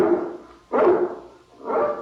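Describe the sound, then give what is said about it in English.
A guard dog barks in a few drawn-out, mid-pitched bursts, fairly loud and with no voices around them. “I can't understand why he barks so tonight.”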